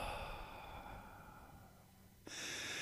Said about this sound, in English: Take a deep breath in. And exhale.